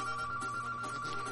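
A telephone rings with a steady, high electronic tone that runs continuously through the short clip. It is faint and sits over a wash of background noise.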